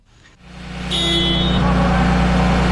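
A heavy truck engine starts during a heavy-vehicle repair skills competition. A brief cranking sound comes first, then the engine catches and settles into a loud, steady, deep idle rumble.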